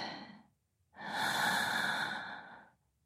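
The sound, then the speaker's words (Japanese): A slow, drawn-out breath in during a calming breathing exercise: a soft, airy inhale lasts nearly two seconds after a short silence, then fades out. “ゆっくり吸って、”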